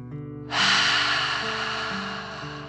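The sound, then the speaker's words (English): Forceful breath out through the mouth during a children's 'dragon breath' breathing exercise: a loud, airy rushing hiss that starts abruptly and holds steady for about two seconds over soft, sustained background music. “And then breathe out, pretending fire is coming out of your mouth. Ready? Breathe in and out.”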